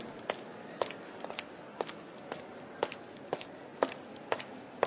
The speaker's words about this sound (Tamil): நடக்கிறது கேக்குதா? கொஞ்சம் ஸ்பீடா நடந்து போலாம்.